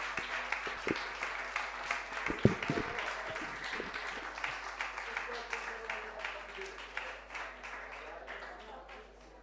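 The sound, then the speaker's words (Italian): Audience applause closing an evening concert at a social literature festival: many separate claps at a moderate, fairly faint level, with a few sharp louder slaps near the start, then a looser, thinning patter that carries on to the end. “Un altro applauso.”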